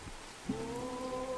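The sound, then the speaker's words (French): Rain hissing and pattering as a steady, even wash of noise, joined partway through by a low sustained hum that holds to the end. “Ah, comment on enlève la pluie là? Mais ça marche avec la pluie, hein.”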